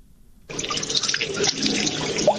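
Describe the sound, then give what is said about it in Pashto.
Water pours from pipes into a built pond after being carried about two kilometres. A dense, steady rushing hiss starts abruptly and keeps going at an even level. “د اوبو دا شور په برملانه کې موجود جوړ شوی تالاب دی. هغه تالاب ته اوبه 2 کیلومتر لري په پایپونو کې لا لیمن خېلو توي ورستل شوی.”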